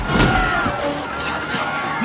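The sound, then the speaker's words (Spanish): Punches and heavy thuds from a film fight scene in which Indiana strikes Lao's son across a table, a few dull slamming impacts buried in a dense, busy soundtrack. “Indiana se lanza sobre la mesa, pero el antídoto cae al suelo. Golpea al hijo de Lao.”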